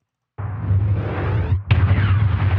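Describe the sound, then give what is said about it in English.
A car's gas tank being shot and exploding in a zombie film scene: a sudden, loud, rumbling blast that roars on, then a second sharp burst that erupts about a second later. “Yes, that is her gas tank exploding. I didn't edit that at all.”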